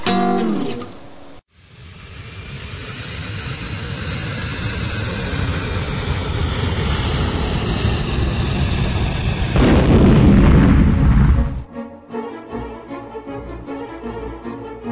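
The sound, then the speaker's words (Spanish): An airplane bound for Brazil crashing in the Amazon jungle: a long, loud, roaring engine drone ends in a heavy crash burst, followed by quieter, scattered sounds. “El avión de la empresa Pluma que viajaba a Brasil se había caído en el medio de la selva amazónica.”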